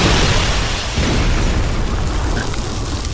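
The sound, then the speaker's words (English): A stove explodes in a ball of fire, heard as a loud, dense rumbling roar that stays sustained for about three seconds without separate distinct bursts. “And the stove explodes in a ball of fire.”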